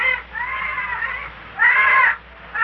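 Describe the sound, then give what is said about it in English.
Eerie calls of brightly ornamented jungle birds: a few drawn-out, harsh, harmonic cries separated by short gaps, the later cry louder than the first ones. “like the eerie sound of overdecorated jungle birds”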